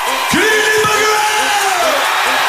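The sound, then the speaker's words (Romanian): A stadium concert crowd in Bucharest cheers at the band's greeting, a loud, sustained roar with whoops and yells rising over it. “Good Evening Bucharest a fost salutul pe care fanii l-au primit cu urale.”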